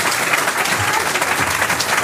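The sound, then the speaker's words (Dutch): An audience applauds two people at the start of an event. The clapping is dense and steady and holds at an even, loud level throughout. “Geef me even klappen voor deze twee.”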